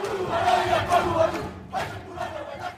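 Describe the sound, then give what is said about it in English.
Performers shout and chant in a Cook Islands welcome performance, raising loud, spirited group cries in a few surging bursts, with a brief drop before the voices rise again. “The performers hold nothing back. You can see and feel every ounce of spirit and mana during this Cook Island welcome.”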